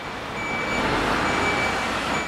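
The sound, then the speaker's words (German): A truck pulls up at a dinosaur fossil excavation to haul away dug-out spoil. Its engine gives a steady, broad rumble, and a few long, faint high-pitched beeps sound through it. “Rainer Schoch steht ganz oben am Rand des Dino-Hügels und beobachtet den Lastwagen, der gerade vorfährt, um den Abraum der Grabung wegzubringen.”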